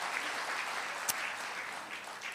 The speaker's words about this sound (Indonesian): Sekali lagi tepuk tangan buat Tuhan Yesus,